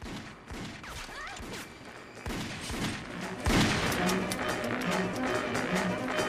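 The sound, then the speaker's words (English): Pistol shots fired during a film action scene: a few sharp, loud bangs cut through dense, busy action sound effects that swell louder partway through. “As he flies through the air, he turns back and fires a pistol at the angels.”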